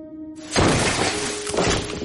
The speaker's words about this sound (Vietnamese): Đột nhiên ầm một tiếng, xà ngang trên trần nhà rơi xuống.